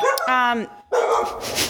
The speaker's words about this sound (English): Hi, that's my dog.